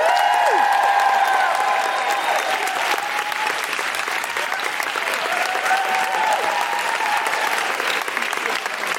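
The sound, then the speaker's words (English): An audience gives a steady burst of applause for an arriving guest, with a few whoops and cheers rising above the dense clapping throughout. “Put your hands together and make extraordinary noises for the wonderful Jenny Eclair.”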